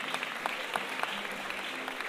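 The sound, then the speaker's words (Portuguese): Clapping from an audience at a samba performance, applause for the singer's partner: a brief, steady patter of many hands with sharp individual claps standing out, even in loudness throughout. “E eu quero uma salva de palmas pra minha preta.”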